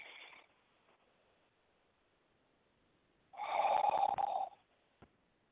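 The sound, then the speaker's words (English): A deep breath inhaled during a guided breathing exercise, one long, rough, airy intake lasting over a second that rises out of near silence and stops abruptly. “So breathe with me, please. We're going to take three deep breaths. So inhale.”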